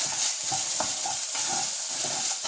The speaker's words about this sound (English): So we want the onions and the peppers to start to cook before we get the garlic in there. Notice I'm not stirring, I'm letting them cook. And then I can come in and give it a little stir.